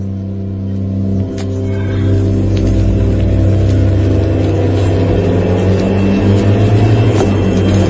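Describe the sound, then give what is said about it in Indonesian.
A car engine running steadily as a car arrives and drives off, a continuous low droning hum with slight swells in loudness throughout. “Hingga tak lama, Wanto pun datang memakai mobil. Lalu kami pun berangkat.”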